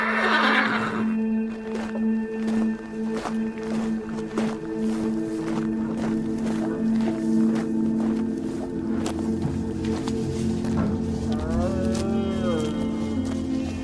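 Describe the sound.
A horse neighing, with a wavering, quavering whinny near the end over a steady droning tone and scattered sharp clicks throughout.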